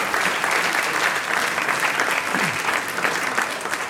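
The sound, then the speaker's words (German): An audience applauds steadily, many hands clapping in a dense, even patter that stays loud throughout almost four seconds, with no break. “Sie dürfen klatschen oder auch nicht.”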